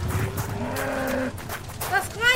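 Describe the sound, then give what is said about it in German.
A herd of cattle lowing, with a few drawn-out moos over a rumbling background. “Was geht da vor? Rindviecher!”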